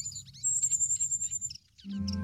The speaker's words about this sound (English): The ever-open, bright red beak and the constant peeping from the cuckoo prompts the reed warblers to bring it food without a break.